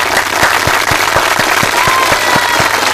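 An audience applauds at a gathering with continuous dense clapping. A regular low thump pulses steadily beneath it.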